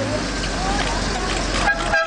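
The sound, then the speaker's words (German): A car horn toots from a silver Jaguar wedding car as the newlyweds' party leaves the church, short honks over a low engine and traffic rumble with voices in the background. “Im silbernen Jaguar fährt die Hochzeitsgesellschaft weiter.”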